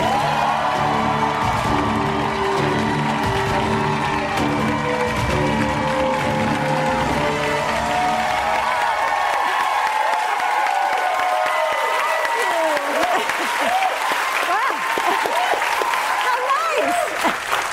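A studio audience on a late-night comedy show welcomes Dr. Jill Biden with loud, sustained applause that fills the whole stretch, joined by cheers and whoops that grow more prominent toward the end.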